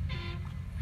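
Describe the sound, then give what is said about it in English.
A truck horn in a video game gives one brief, faint toot over a low, steady rumble. “Right now I'm playing my game SnowRunner, so you may hear that in the background.”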